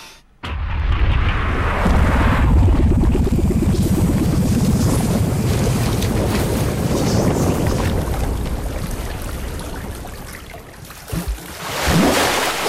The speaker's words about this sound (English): pulled into the TV and down a long, dark well into the swirling water below